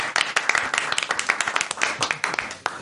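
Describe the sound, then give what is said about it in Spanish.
Applause from an audience for a quiz contest team's points tally at a Christmas special, many quick, dense claps running at an even, moderate level from start to finish. “Bien. Aplauso.”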